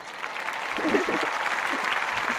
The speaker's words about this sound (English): That's the big crowd. That's the big crowd. That's the big stadium crowd applause.